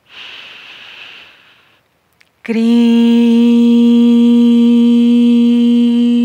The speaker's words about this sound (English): We inhale again.